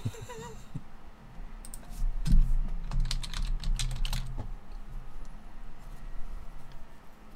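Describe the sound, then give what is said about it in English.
Typing on a computer keyboard while entering a map search: a continuous run of rapid, uneven key clicks, with a denser and louder flurry in the middle and a heavy thump near its start. “It really sucks because when you type, you can't just type in like Ukraine map.”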